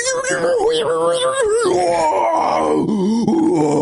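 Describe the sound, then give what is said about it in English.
A person imitates a man groaning as he pulls himself up with heavy weight around his waist. The groan is long, loud and strained, with a wavering, sliding pitch. “there was a guy this morning just groaning the most hilarious groan, and he was doing something pretty hard, so I understand, but like, it was just like, he just like pulled himself up with a ton of weight around his waist”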